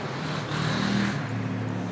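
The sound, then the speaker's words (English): Motorbikes riding past give a continuous low, rumbling engine drone that swells slightly in the middle and then holds steady, with no voices. “Listen. Those arseholes on their bikes. That's noise pollution.”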